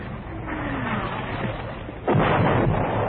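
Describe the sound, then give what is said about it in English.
Artillery fire in a wartime battle: dense, rumbling noise runs throughout, then swells abruptly into a louder, sustained roar partway through. “We're getting some artillery fire.”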